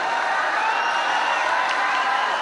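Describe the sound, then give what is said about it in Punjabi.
A crowd at a kabaddi event cheers and applauds in a dense, steady roar that holds at an even level throughout, with no clear speech on top. “ਇੱਕ ਵਾਰੀ ਜ਼ੋਰਦਾਰ ਤਾੜੀ ਆਪਣੀ ਆਪਣੀ ਮਾਂ ਦੇ ਨਾਲ।”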